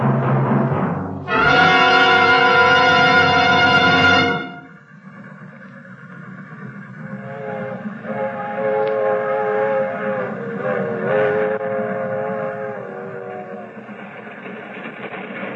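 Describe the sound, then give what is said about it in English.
A freight train sounds a loud, sustained whistle blast for a few seconds, then its running continues as a steady rumble with lighter tonal squealing above it. “We don't sell tickets on this freight.”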